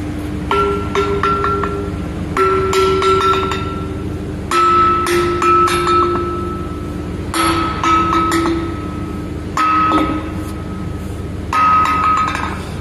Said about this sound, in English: So gonna crack this with a sledge on the opposite side and open it up on its weak side and see where it breaks.